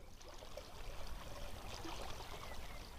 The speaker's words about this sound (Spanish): Esta agua representa el agua de fusión. Fluye muy rápido y alcanza un gran ímpetu, por lo que puede atravesar la morrena.